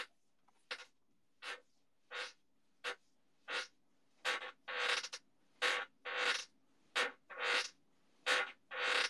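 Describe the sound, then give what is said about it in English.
A loose chair creaks over and over, about a dozen short, scratchy groans coming at a fairly regular pace and growing somewhat longer and louder toward the end. “Is that creaking sound your chair? Yes.”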